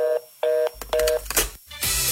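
Telephone keypad tones dial a number: a few short, steady beeps with brief gaps between them, followed by a burst of broad noise.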